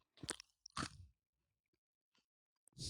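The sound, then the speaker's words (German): Crunchy chewing of paprika crisps comes in a few loud crunching bursts with quiet gaps between, plus a couple of tiny faint crunches before a final loud burst. “Kau doch noch ein bisschen. Und schon gar nicht Paprika-Chips.”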